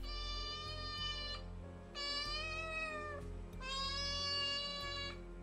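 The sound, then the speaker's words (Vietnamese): A cat meows in a house with an echoing call, giving three long, drawn-out tonal meows separated by short gaps, each clear and fairly high-pitched, over a low steady hum. “từ trên nhà trên có tiếng mèo kêu lên vang vọng”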